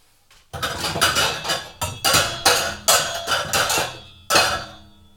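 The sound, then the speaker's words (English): A small saucepan is set on a stove with many sharp, ringing metallic clanks and clatters. Repeated hard impacts come in an uneven rhythm, each with a brief bright ring. “So I got my saucepan, putting it on the stove.”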